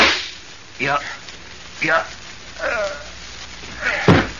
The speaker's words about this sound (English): I warn you, Randolph. I've got a gun. I'm going to shoot.